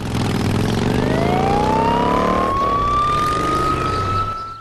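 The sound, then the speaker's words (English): A police motorbike's siren sets off in pursuit of a car, sounding loud and continuous, its wail climbing steadily in pitch through the first half before holding a high, sustained tone. “A motorbike cop sets off in pursuit of Audrey.”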